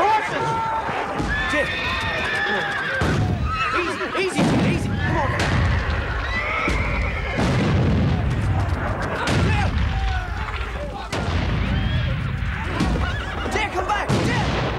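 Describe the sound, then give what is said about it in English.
Frightened horses neigh and whinny again and again amid heavy explosions, with loud booms of blasts and artillery fire. A dense, chaotic mix of shrill calls and low rumbling bursts continues throughout. “Explosions burst around the horses.”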